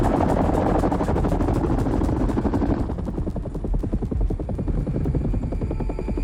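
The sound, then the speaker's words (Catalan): Loud, continuous chopping throb of a helicopter in flight under a cloudy sky, banking to head east. Steady rotor pulses run throughout, with a heavier low rumble in the first half that thins out later. No voices. “En Leroy desvia l'helicòpter sota el cel ennuvolat”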